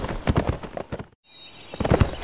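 Hooves of a ridden horse clop in a steady rhythmic series, stop briefly, then resume with more clops toward the end.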